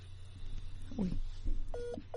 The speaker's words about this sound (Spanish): Se nos ha caído la llamada, estamos tratando de reconectar.